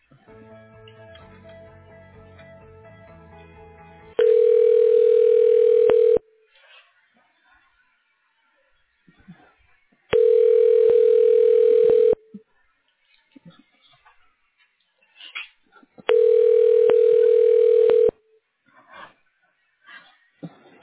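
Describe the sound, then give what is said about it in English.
Three long, steady telephone ringing tones on a line while a call is transferred to voicemail, each lasting about two seconds and separated by several seconds of near silence. “Let me get you through to Paula's voicemail.”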